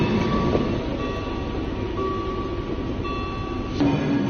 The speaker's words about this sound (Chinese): 随着我身后的列车缓缓进站，满载着精密仪器和汽车配件等外贸物品的首列中欧班列上海号终于抵达了它的目的地汉堡港